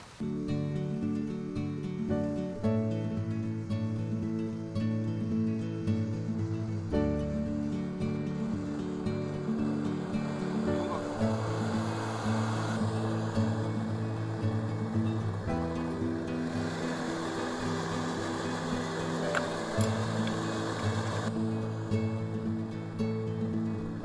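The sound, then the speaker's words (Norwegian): A petrol camping stove burner runs while its fuel container preheats, giving a steady, broad roaring hiss with a low humming undertone that persists without a break. “den driver nå varmer opp denne beholderen. Og når den har stått og varmet opp lenge nok, så begynner jeg å slippe opp ventilen, for da har det blitt gass i stedet for bensin”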